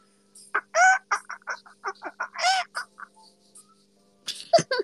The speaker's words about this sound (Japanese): ちゃんと鶏だった。鶏でしょ。